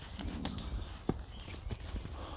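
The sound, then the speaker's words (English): Footsteps of someone walking in the woods on dewy ground on a cool spring day. Several soft, irregular steps sound faintly. “we are in the woods today, which is nice. And we're walking.”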